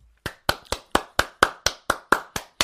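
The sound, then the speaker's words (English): Applause given as a round of clapping for someone: many crisp, evenly spaced hand claps in a steady beat, sounding like a single pair of hands rather than a crowd, with no voices. “Everybody give a round of applause”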